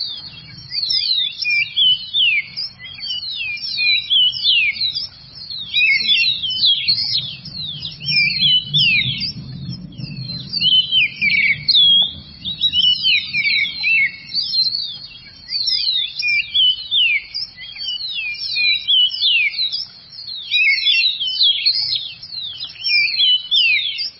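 A bird from the cold Andean highlands of Colombia sings its melodious dawn song: bright, rapid high-pitched phrases repeated almost without pause over a faint low rumble.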